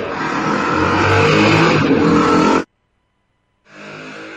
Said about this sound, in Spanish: Me parece que es el ruido de la retaguardia. ¿No? Una moto pasó en algún lado.